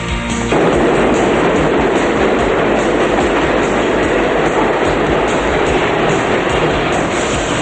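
Subway train rumbling in a loud, steady roar with a rhythmic clatter of wheels on rails. It swells up after a brief quieter start and keeps going without a break. No one speaks.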